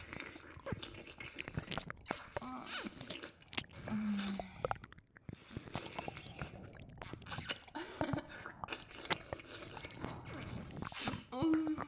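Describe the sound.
Close, wet biting and chewing of food, with many irregular crunches, squishes and smacks that vary in loudness from moment to moment.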